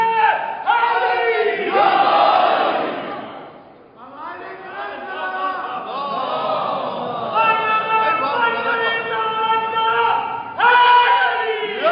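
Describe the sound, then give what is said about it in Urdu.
A large crowd at a religious gathering chants Naara-e-Takbeer and Allahu Akbar slogans. Many voices shout long sustained phrases together, loud and massed, with a brief dip partway through before the chanting swells again. “میں نے کہا نعرے تکبیر لگائی اللہ اکبر، نعرے رسالت یا رسول اللہ، نعرے حیدری یا علی صلوات.”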